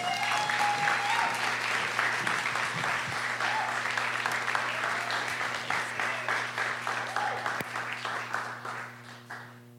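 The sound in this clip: Audience applause welcoming a poet to the stage at a literary event: dense, sustained clapping from many hands over a low steady hum, slowly thinning into scattered claps toward the end.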